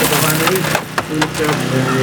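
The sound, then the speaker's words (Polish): Firefighters smash the rear window of a car to reach a person trapped inside. A few sharp cracking and crunching hits break through a loud, continuous wash of noise. “Strażacy wybili tylu szybę.”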